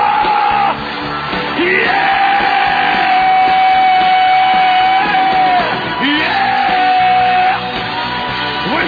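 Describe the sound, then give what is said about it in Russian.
Loud, sustained yelling and whooping in a spiritual victory cry, with long held vocal cries that break off briefly near the start and dip again later, several voices blending together. “Кричи на него!”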